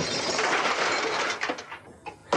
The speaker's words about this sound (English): TV smash. Take one. One, two, three, four.